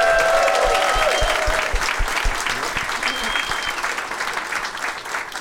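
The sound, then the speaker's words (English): Audience applause welcomes a first-time guest on a live show: dense, steady clapping from a crowd that slowly thins and softens toward the end. “First time guest on the show, everybody. Let's hear it for Travis McElroy.”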